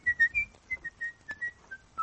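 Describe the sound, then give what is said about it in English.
A person whistles a tune alone as a quick series of short, clear notes that step up and down in pitch, each note separated by a brief gap, at moderate loudness. “Whistle's fine.”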